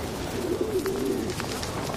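A pigeon gives a single soft, rolling low coo, one of a flock of birds holding territory around a metro station, over steady background noise.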